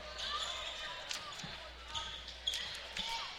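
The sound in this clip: A basketball is dribbled out late in a game by a North Huron Warriors player, giving faint, evenly spaced thumps beneath a speaking voice and a steady background hum.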